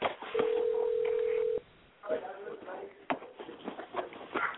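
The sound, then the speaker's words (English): A telephone tone sounds while a call is being dialed: one steady, level electronic tone holds for over a second, then cuts off, followed by clicks and people talking. “Hold on, let's dial with him now.”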